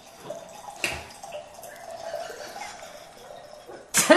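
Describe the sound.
A drink being poured and topped up, a soft, continuous trickling gurgle of liquid at low level, ending with a short, louder burst of noise.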